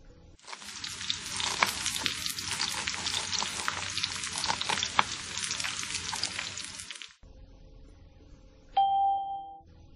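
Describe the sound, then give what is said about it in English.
Food sizzles and fries in a pan as someone cooks, a loud, dense crackle that runs steadily for about seven seconds and then cuts off, followed by a single bright, ringing ding that fades out. “He's cooking.”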